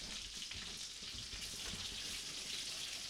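Crumbled bacon sizzles on a hot griddle in a faint, steady hiss with fine crackles running evenly throughout, with no talking.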